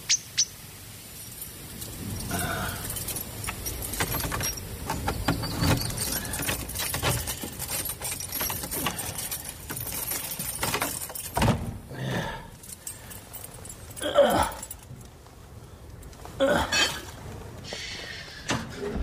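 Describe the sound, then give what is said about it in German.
House keys jangling as a man opens the front door of an apartment building, with faint clinks, rustles and a few sharp clicks, and birds chirping in the background. “Er öffnet die Haustür,”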